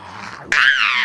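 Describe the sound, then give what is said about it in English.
A child imitates a big dinosaur's roar with one loud, sustained, growling roar that bursts in abruptly after a quieter stretch and holds strong to the end. “there was a big ginormous dinosaur that roared so big and loud.”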